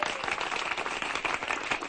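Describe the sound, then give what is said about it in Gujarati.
Audience clapping at a magician's show: a dense, steady patter of many hands, fairly quiet and even throughout. “મારો જાદુ નહીં જાય ખાલી ચાલો સૌ કોઈ વગાડો તાળી”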